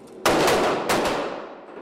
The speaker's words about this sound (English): Back at Darnell's gun range near Bloomington, I meet Armed Security Officer Frank Whitmore.